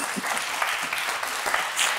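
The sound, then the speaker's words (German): Studio audience applause in which two men clap frenetically while the rest clap politely; a dense, steady patter of many hands runs through the whole moment at an even level. “Es gab zwei Herren, die hier gerade frenetisch geklatscht haben. Der Rest war eher höflich.”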